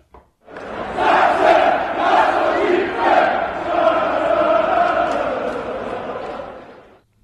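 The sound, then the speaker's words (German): Football fans in the stands in Saxony chant a call to get vaccinated. The loud crowd chants in unison for about six seconds, then fades out. “Aber den Impfaufruf gab es auch nochmal von den Rängen. Hören wir da mal rein.”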